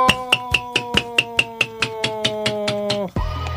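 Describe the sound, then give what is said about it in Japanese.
A squeaky plastic toy hammer is tapped again and again but gives no squeak. Over a dozen quick, evenly spaced dull taps come in a steady rhythm, then stop abruptly. “ピコピコハンマーが全然鳴らないねこれ。スカスカハンマーじゃないですかこれ。”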